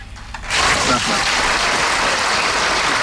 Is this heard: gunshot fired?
no